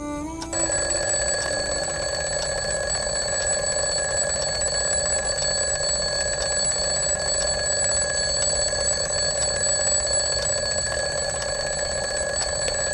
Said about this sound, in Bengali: ঘুম ভাঙল ঝনঝনানি অ্যালার্মের শব্দে।